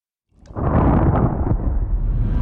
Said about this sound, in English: you're listening to some like really intense like death metal or something. Finally, everything explodes.